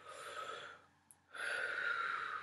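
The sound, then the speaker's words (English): A person takes a deep breath: long, airy, rushing breath noise broken by a short quiet gap, then a second sustained breath that holds steady to the end. “All right, you guys, let's take another deep breath.”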